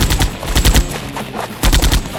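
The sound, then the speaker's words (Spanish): A smoking rifle fires across a battlefield in loud, rapid bursts of sharp cracks, the shots packed closely together in a few clusters separated by brief pauses. “El fusil de Hugo suelta humo al disparar.”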